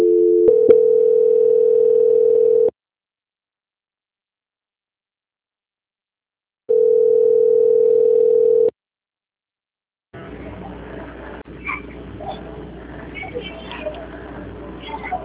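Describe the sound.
Two long, steady mid-pitched telephone tones, each about two seconds, sound during a call transfer with a long silence between them. A noisy open line with hiss and faint clicks then takes over.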